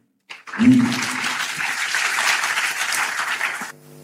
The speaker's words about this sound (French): Est-ce que nous pouvons continuer d'acclamer le Seigneur pour cette parole?